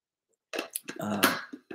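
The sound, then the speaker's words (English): Someone takes a swig of a drink, with a few short gulping sounds and a throaty exhale. “Let me get a little swig here.”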